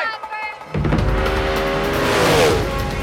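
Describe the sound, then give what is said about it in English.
A racing vehicle blasts past at about 168 miles per hour. After a quieter opening, a sudden, loud, sustained engine roar holds steady, with a falling whine near the end. “The Munro Special blasts past the second mile marker.”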